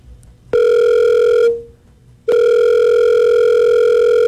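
An unanswered telephone call rings back in long, loud, steady tones: one full tone, a pause, then a second tone that runs to the end.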